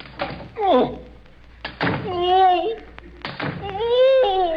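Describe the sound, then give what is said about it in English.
Three dull thunks as razor-sharp swords are plunged one after another through a magician's basket during a stage trick, with voices sounding between the blows. “All I do is plunge these three razor-sharp swords through the basket. Apparently through my assistant.”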